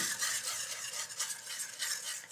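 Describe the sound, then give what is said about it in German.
Beer is stirred into a batter for frying until smooth, giving a quiet, continuous swishing and scraping with an uneven back-and-forth rhythm and no voices. “So, und jetzt haben wir hier das Bier, das geben wir jetzt hier einfach dazu und rühren so lange, bis ein glatter Teig entsteht.”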